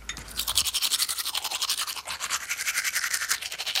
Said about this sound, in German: So, jetzt noch Zähne geputzt. Ja, Zahncreme drauf, so. Ja. Und los.